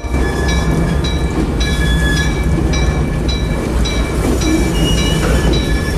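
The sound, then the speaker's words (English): A train glides past a waiting group in thick grey mist, a steady loud rumble of wheels on rails laced with repeated high-pitched squeals and ringing metallic tones throughout, with no voices. “The front light of a train appears around a bend. Its giant hulk smoothly glides into view and passes alongside the waiting group.”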